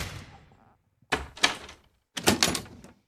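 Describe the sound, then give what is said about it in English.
Knocking on a door in a few loud bursts, each a quick cluster of hard thuds, separated by short pauses. “You don't have to knock again. Just open the door.”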